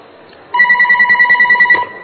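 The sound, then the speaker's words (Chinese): A telephone rings with a bright electronic trill: a rapidly pulsing high tone that starts abruptly, runs for about a second and a half, then stops. It sounds loud and stands alone, with no voices. “我们先把这个放下，先看接这个电话。”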